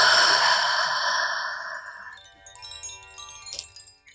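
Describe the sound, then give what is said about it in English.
A deep breath exhaled through the mouth during a mindfulness breathing exercise. The airy, breathy sound starts loud and fades out over about two seconds, and faint tonal sounds linger afterward. “Deeply inhale through the nose. Exhale through the mouth.”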